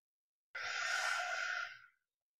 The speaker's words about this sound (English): Long exhalation, cooling and calming.